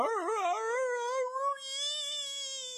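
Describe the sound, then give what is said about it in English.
A voice imitates a blood-curdling howl or scream: one loud, sustained, high wail that wobbles up and down at the start, then holds a steadier pitch until the end. “Our reverie, it's broken by this like blood-curdling howl or scream coming from directly behind Beware”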